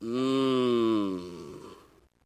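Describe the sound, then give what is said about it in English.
A person groaning in prayer: one long, drawn-out voiced groan, loud at first, that slowly sinks and fades away into quiet. “The Bible says that I can simply, as I'm praying, I can just groan. Isn't that cool? You can just go,”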